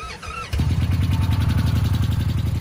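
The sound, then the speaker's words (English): A 2014 Indian Chief motorcycle, a big road cruiser, fires up after a brief pause and settles into a loud, lumpy idle with a steady, pulsing low rhythm. “All right, Zeus, ready to go for a ride? A 2014 Indian Chief, a beast of a road bike.”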